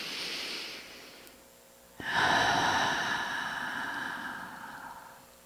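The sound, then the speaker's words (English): A slow, audible breath drawn in: a soft airy breath first, then a pause, then a louder, long, steady rush of air that gradually fades. “And another breath in.”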